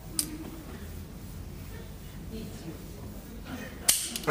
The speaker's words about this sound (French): Attention, je plaisante pas, à trois, je tire. Un. Deux. Trois.